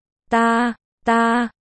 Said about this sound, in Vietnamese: Hắn đột nhiên nhăn mặt cúi xuống đỡ thắt lưng. Có lẽ đau đớn lắm hắn mới kêu lên như vậy.